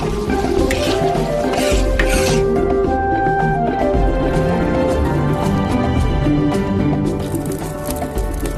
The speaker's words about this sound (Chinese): 选肥瘦均匀的火腿和新鲜的莴笋同炒，放入大蒜调味